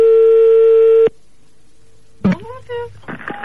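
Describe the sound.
A telephone rings on an outgoing call. One steady, mid-pitched ring tone holds for about a second, then a quiet pause, then a voice answers and talking follows.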